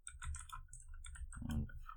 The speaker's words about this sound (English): Excuse my typing here.